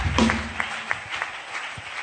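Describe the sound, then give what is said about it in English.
Church audience clapping, fairly faint and scattered, with several sharper individual claps standing out at a loose, roughly regular pace over a thin background. “Are you clapping? My prophet, wow!”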